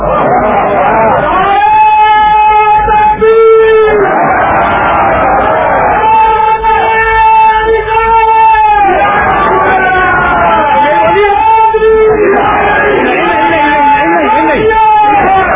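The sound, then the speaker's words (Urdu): A crowd at a religious gathering shouts a long slogan in unison, loud, voiced surges of chanting that rise and fall in several repeated waves throughout. “اتنا لمبا نعرہ مارو گے تو میں تکلیف ہو جاؤں گا”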